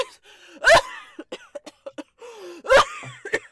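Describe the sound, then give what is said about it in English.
Coughing from someone who has breathed in smoke: two harsh, loud coughs, separated by shorter throaty catches and small breaths. “You don't think I know what a smoke cough and a sick cough sound like?”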